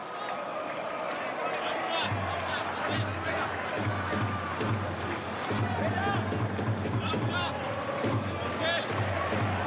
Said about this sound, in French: On entend les Argentins qui chantent, ça on n'aime pas. Le public argentin qui chante dans les tribunes de Valladolid.